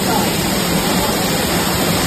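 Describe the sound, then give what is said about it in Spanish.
A torrential cloudburst downpour pounds at night in Castellón, a dense, loud, steady roar of rushing water that stays unbroken from start to finish. “Así sonaba anoche la tromba de agua en Castellón.”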